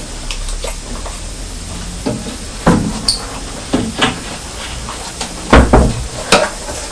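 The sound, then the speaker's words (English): Cupboard door knocks and bumps as dried fruit is put back on a kitchen shelf: several short, sharp wooden thuds and clatters spaced irregularly, with a cluster of louder knocks near the end. “I've just put the dried fruit back in the cupboard.”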